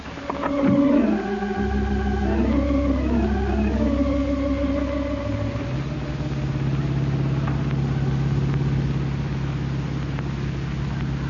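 Engine of a blue 1942 convertible driving down a highway, its tone swelling and dipping at first, then settling into a steady, loud low drone with no talking.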